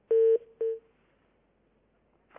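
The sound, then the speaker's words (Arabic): A telephone line cuts off after a caller from Cairo drops, leaving two steady electronic tones: a longer one, then a short one. Near silence follows. “فصل الاتصال.”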